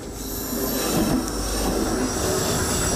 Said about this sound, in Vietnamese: Thì nói chung cho tàu trong này ra là như rất là nhanh, đây đã tốc độ chạy tốc độ từ 70 trở lên, qua giờ rất nguy hiểm như sao.